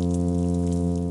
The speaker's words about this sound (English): It is a male fish, a plainfin midshipman, to be exact, from the Pacific Ocean. He is singing or humming a love song to get female fish to come and visit the nest he built for their eggs.